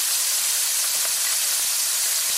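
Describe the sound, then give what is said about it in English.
Raw shrimp sizzle in hot oil in a pan, giving a steady, bright hiss with faint scattered crackles and no talk. “we're heating some oil in our pan. So we're gonna add our shrimp here first. So we are using raw shrimp.”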